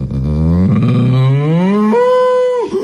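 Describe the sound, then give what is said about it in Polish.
A cow lets out one loud, long moo that starts low and rough, then shifts up into a higher, steady drawn-out tone before breaking off. “Krowa. Bo krowy robią takiego zwrotniaka.”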